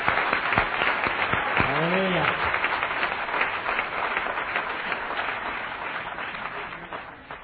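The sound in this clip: An audience applauds to welcome guest speakers at Bible Temple church, a dense, steady wash of clapping that runs throughout and tapers slightly at the end, with a voice briefly heard over it.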